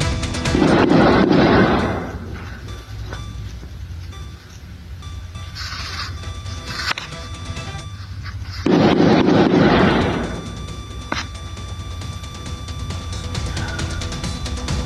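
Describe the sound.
Gunfire from a deadly shootout between police and suspects in San Luis Potosí: two long, loud bursts of dense shots separated by a quieter stretch with a few isolated sharp pops.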